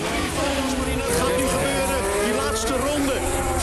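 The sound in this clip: Formula 1 race car engine accelerating, a loud, high harmonic whine that shifts in pitch through the revs and runs continuously, with talk mixed in.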